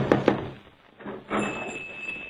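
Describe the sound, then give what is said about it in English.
Someone knocks twice on a door, two sharp, quick raps close together, then softer thuds and a low rustle follow after a short pause. “I went up and I knocked on the door.”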